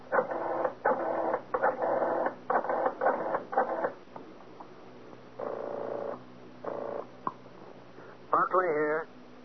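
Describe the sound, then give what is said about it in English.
Telephone number being dialed: a quick run of short, clear tone bursts, followed after a pause by a couple of longer tones. “Better yet, I'll dial and have him speak with you.”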